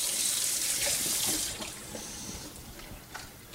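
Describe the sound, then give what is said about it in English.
A kitchen tap runs as a container just used for pudding is rinsed under it. The water rushes steadily and strongly at first, then sounds softer and more uneven. “Now rinse this, because I'm going to use it again in a minute for my whipped cream.”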